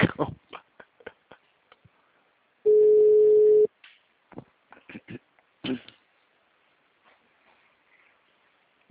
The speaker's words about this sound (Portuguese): Agora chamou. Caixa postal. Agora tá chamando.